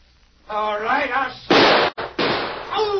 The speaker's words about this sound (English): Oh, my gun! I just shot it out of your hand.